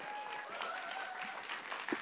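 A church audience applauds and whoops to welcome a preacher, a steady wash of faint clapping with a few high whoops rising over it.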